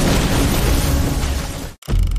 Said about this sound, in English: there is a massive explosion